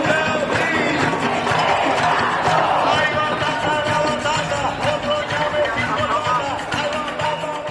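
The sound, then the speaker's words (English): A crowd of protesters marches through San Juan, Puerto Rico. Many voices shout and call out together in a loud, steady roar that runs unbroken through the whole stretch. “That's the sound of people marching through San Juan after Rossello released a videotape address saying he'll step down August the 2nd.”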